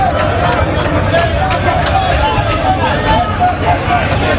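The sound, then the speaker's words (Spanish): A crowd of migrants mills outside the Gambian embassy in Madrid, some trying to climb a fence to reach regularization papers. Loud, dense hubbub of many overlapping voices and shouts runs without pause. “Este es el sonido de la embajada de Gambia en Madrid.”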